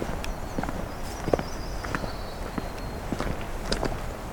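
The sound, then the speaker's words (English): Outdoor ambience of a wooded section at Pine Tree Point North on a June afternoon, with many soft crunching footsteps over a low, steady background hush. “into this one last wooded section. Take a quick listen. It's got a different habitat to it from what I can tell.”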